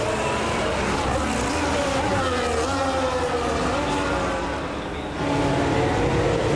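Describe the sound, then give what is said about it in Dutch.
Formula 1 cars making practice starts during first free practice at the 2026 Azerbaijan Grand Prix. A loud, continuous engine roar shifts in pitch, dips briefly near the end, then surges again. “Als die laatste proefstarts gemaakt worden.”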